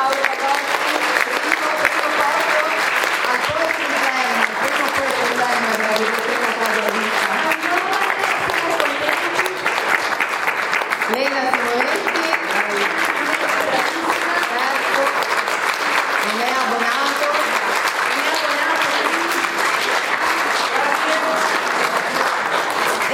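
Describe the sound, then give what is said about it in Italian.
Sustained audience applause at a poetry slam, dense, steady clapping that holds at an even level for the whole stretch, with some voices faintly beneath it. “Un applauso ancora.”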